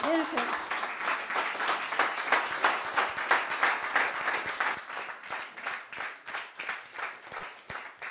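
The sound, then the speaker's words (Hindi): Crowd applause after a song at a live music show: many sharp claps blend into a sustained, lively patter that loosens toward the end, with a brief voice at the very start. “ये तालियां विद्या के लिए है इतना अच्छा गाने के लिए ये तालियां आपके लिए है”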